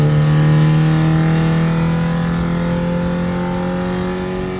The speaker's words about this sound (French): La troisième est beaucoup plus longue à monter. C'est normal. On est déjà à 140. Pour une R5, c'est pas mal.